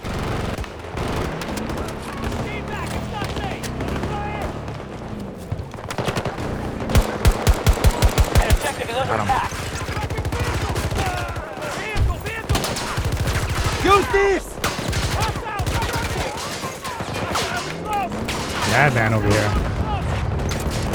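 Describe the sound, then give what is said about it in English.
Light machine gun fire in a video game, with rapid bursts of automatic shots, one especially sharp run midway, among other gunfire and booms. Players talk over the shooting. “I switch back to the LMG and get some kills. Grenade out!”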